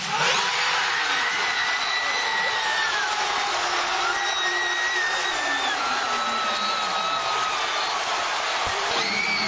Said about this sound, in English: It sounds like a thrill ride. Like, yes! Like a roller coaster. I was just going to say that. Yeah. That's exactly what it was.